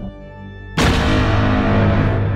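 A cannon or gunfire sound effect erupts suddenly after a short, low tonal passage. The blast stays loud and dense, becoming a sustained roar that carries through to the end.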